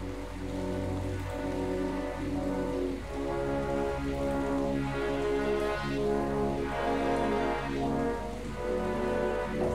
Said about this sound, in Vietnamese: Hôm nay trời mưa đó. Trời mưa nên là nó hơi lát.